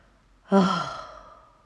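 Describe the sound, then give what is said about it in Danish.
A single voiced, releasing exhale taken during a guided breathing exercise: a sigh that starts loud and breathy, then fades away over about a second. “To indåndinger på samme måde. Og to frisættende udåndinger på den måde. Gerne med lyd”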